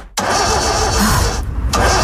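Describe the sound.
A car engine starts with an abrupt onset and settles into a steady mid-pitched running hum, briefly dropping out before resuming at full strength.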